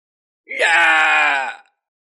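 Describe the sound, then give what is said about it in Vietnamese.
A man screams in pain and terror, an audiobook sound effect: one loud, strained cry held for just over a second, heard alone. “Đột nhiên một vị nửa bước đại năng của Tiêu gia kêu lên thảm thiết, tràn ngập hoảng sợ.”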